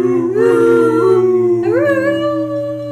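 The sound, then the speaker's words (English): Wolf howling: sustained, loud tonal howls that waver and glide, with a clear upward pitch sweep about midway, continuing for the whole stretch without pause. “That? That's a wolf.”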